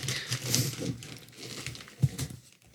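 Paper crinkles and tears as a gift wrapped in newspaper and rubber tape is unwrapped, with uneven rustling and one sharper crackle near the end.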